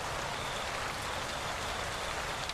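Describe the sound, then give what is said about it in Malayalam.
Light rain falls on a concrete courtyard outside a house, making a steady, quiet, even patter of drops with no other sounds. “വീടിന് പുറത്ത് മഴ ചാറി തുടങ്ങിയിരിക്കുന്നു. Concrete ഇട്ട് ഉറപ്പിച്ച മുറ്റത്ത് മഴത്തുള്ളികൾ തല്ലി അലച്ച് വീഴുന്നു.”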